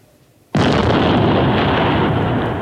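A hand grenade explosion goes off with a sudden, loud burst after a half-second of near silence. It is followed by a dense, roaring rumble that fades only slightly over the next two seconds.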